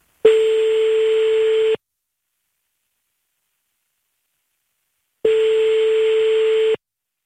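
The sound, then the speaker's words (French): A telephone call ringing out, heard as a ringback tone: two long, steady, identical beeps, each lasting about a second and a half, separated by a long stretch of silence. “On appelle Camille tout de suite.”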